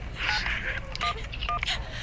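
Phone keypad tones as a number is dialed: a few short, clear beeps over a faint, steady background hiss.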